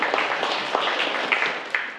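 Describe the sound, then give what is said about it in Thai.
Students in a classroom applaud a classmate with a brief, light patter of clapping, a few sharper claps standing out from the steady rustle. “ครับปรบมือให้กับเพื่อนเลยนะครับ”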